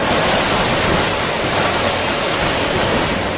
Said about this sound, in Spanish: Esto son las olas del mar, las olas del mar que algunos ven durante ese mes de agosto, que algunos ven y algunos oyen.